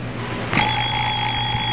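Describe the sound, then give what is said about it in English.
A Big Ben alarm clock goes off at 4 a.m., its steady, high ringing tone starting abruptly after a brief pause and continuing unbroken to the end over a low hum. “I'll murder that alarm clock. Oh, it's a wonderful alarm clock.”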